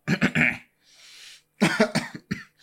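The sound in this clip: Coughing comes in two rough clusters of several harsh bursts each, separated by a soft breathy pause, fairly loud and with no talk over it.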